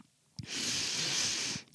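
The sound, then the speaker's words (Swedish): One long, deep inhalation by a person, an airy hiss lasting just over a second, heard alone without talk. “Nu tar jag ett djupt andetag.”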